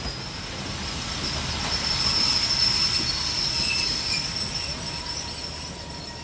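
A train runs along a railway with a steady, loud rumble of wagons and wheels, overlaid by thin high squealing tones from the wheels throughout, with no voices.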